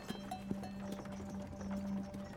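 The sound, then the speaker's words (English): Oxen hooves clop unevenly as the animals strain to pull a wagon up a mountain trail, a steady run of faint knocks over a constant low hum. “The oxen begin puffing and blowing as they strain against the weight of the wagon, and they make their way sure-footedly up.”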